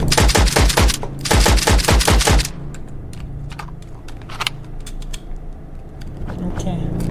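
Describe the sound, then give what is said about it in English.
Gunfire from a gun in a video game rattles out in two loud rapid-fire bursts, followed by quieter scattered clicks and mechanical clatter. “The gun is good.”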